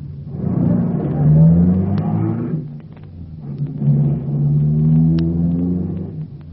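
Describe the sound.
Car engine revving as the car is driven hard toward an out-of-control fire: two loud surges of rising engine tone, each swelling and then easing off, with no talk over it.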